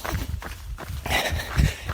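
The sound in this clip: Footsteps walk outdoors along an exercise course, a steady series of soft, low thuds with a faint rustle above them and no talk.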